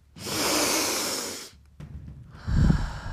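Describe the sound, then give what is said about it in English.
Deep breathing inhales, drawn in as slow, airy breaths: a long, loud inhale followed after a pause by another breath starting near the end, with no talking. “Breathe deep. We're going to take some deep inhales right here.”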